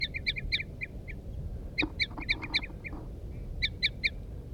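A female and a male bird call back and forth, the female with loud toop notes and the male with softer ones. The short, high notes come in three quick clusters over a low, steady rumble.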